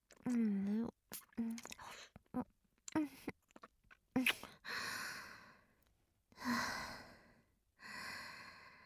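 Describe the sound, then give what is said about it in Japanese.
Wet kissing sounds in a Japanese romance audio drama about a first kiss, several short smacking kisses interspersed with soft sighs and breathy female vocal sounds. “あなたの唇、とっても美味しいわ。私のファーストキスもあげられて、とっても嬉しい。”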